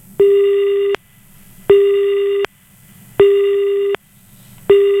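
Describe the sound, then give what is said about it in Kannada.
A telephone busy signal sounds after a call-in line disconnects: four loud, evenly spaced beeps of a steady low-pitched tone, each lasting under a second with equal gaps between them, the last one cut short. “Hello, ಸಂಪರ್ಕ ಕಡಿತಗೊಂಡಿದೆ.”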